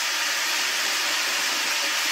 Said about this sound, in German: Wir werden den Wasserkocher nochmal einschalten. Oh, Wasserkocher einschalten.